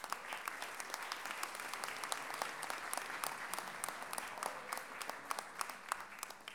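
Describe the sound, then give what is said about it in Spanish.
Audience applause at a feminist gathering: many hands clapping in a dense, steady patter, quiet overall, with sharper individual claps standing out throughout. “Un aplauso para ustedes también.”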